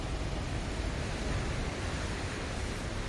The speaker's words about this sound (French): La houle. De la houle, oui. Beaucoup de houle.